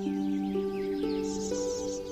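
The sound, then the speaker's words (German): Birds chirping in hedges give faint, quick, high twitters that repeat over a steady low hum. “Ihr hört das leise Rascheln von Blättern, das Zwitschern von Vögeln, die in den Hecken Verstecken spielen,”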